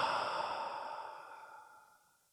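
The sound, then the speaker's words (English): A single deep breath is released through the nose during a relaxation exercise, a soft airy exhale that starts moderately loud and fades steadily over about two seconds. “Take a deep breath in through the nose and a deep breath out through the nose or mouth.”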